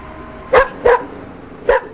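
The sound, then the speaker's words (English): A dog barks three times in a Chinese village of about 100 families north of Beijing, near the Great Wall. The barks are sharp and mid-pitched; the first two come close together and the third follows after a pause, over quiet background. “a village of some 100 families and, it seems, almost as many dogs”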